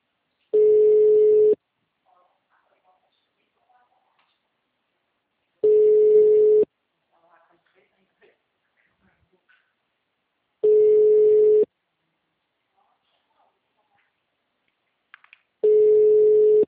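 A telephone ringback tone sounds on an outgoing call: four steady mid-pitched tones of about one second each, evenly spaced roughly five seconds apart, with near silence between them.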